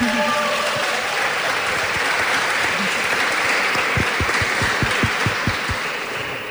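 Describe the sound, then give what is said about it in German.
Audience applause for a young Fridays for Future representative at a panel event in Siegen. Dense, steady clapping from many hands, with a few louder individual claps near the end as it tapers off. “Also für Mio brauchen wir dann auch nochmal Applaus.”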